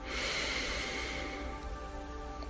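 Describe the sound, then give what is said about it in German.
A deep inhale through the nose during a guided breathing relaxation exercise: a soft, airy, continuous rush of breath lasting a couple of seconds at low volume. “Atme tief durch deine Nase ein”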